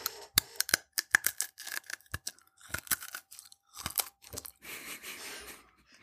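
Crunching of a hard candy being eaten: many sharp, irregular crunches and crackles, loud and alone, ending in a denser, rough crackling stretch.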